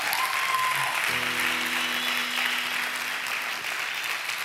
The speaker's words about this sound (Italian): Sì, volete fare un altro applauso? Ci sta.